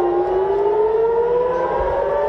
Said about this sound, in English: Another night of sirens as Israel and Iran attack each other.